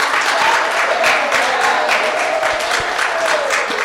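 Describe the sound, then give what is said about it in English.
An audience applauding in church: a loud, continuous roar of many hands clapping that holds steady from start to finish. “Can we give these men another hand, everybody?”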